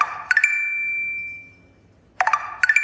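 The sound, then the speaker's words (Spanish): A Tinder app notification sounds as bright electronic chimes. A quick ding rings on in a sustained high tone, then after a short silence comes another cluster of quick, sparkling dings. “¿Tienes Tinder? ¿Qué? ¿De cuándo acá tú tienes Tinder? Ajá, ¿y cómo tú sabes que es el sonido de Tinder?”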